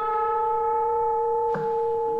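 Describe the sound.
A sustained electronic tone holds one steady pitch with bright overtones, broken midway by a brief noisy burst before the tone continues unchanged.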